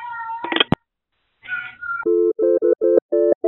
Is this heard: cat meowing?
yes